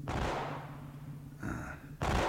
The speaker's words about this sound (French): En effet, des coups de feu.